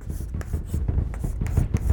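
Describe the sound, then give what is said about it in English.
A pen scratches out a small star, an asterisk, on paper in a quick series of short, crisp strokes, each a brief papery scrape in an uneven rhythm. “You know, draw my little star, an asterisk.”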